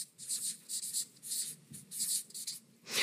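A project name is being written on a board, with many short, scratchy strokes coming in quick bursts and brief pauses between them, quiet and without talk.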